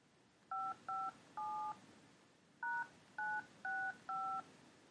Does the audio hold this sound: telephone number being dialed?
yes